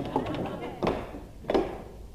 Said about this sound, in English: Well, if I open the door, we may find out, dear.